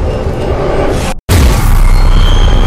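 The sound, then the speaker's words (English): An explosion obliterates a gun position in a searing white flash: a loud, dense roar that cuts out for a brief silent instant, then returns just as heavy and sustained. “The second obliterates the gun position next to him in a searing white flash.”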